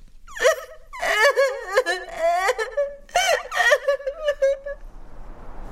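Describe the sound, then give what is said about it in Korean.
A young daughter crying: high, wavering wails and sobbing moans rise and fall in two bouts of several cries each, separated by a brief catch of breath, loud and unaccompanied by speech. “난 우는 딸아이를 간신히 달래고 화장실로 갔어.”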